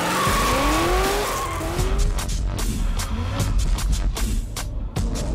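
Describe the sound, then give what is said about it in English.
A race car drifting on a private race circuit in India, its tires squealing in long, wavering high whines over a loud, continuous engine roar. “He built his own race circuit on his company's campus. Total cost of the cars and the track, nearly 250,000 euros. This discipline that he wants to launch in India is called the drift.”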